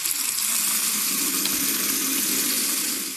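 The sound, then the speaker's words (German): Hands are washed under a running tap, giving a steady water hiss that holds for about three seconds and eases slightly at the end, with no talking. “Okay, ich wasche mir noch gerade die Finger.”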